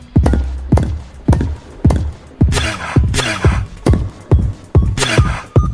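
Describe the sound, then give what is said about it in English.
Heavy footsteps descend stairs in a video game: many hard, hollow thuds at an even, steady walking pace, alone without talk. “Descend stairs. Descend stairs.”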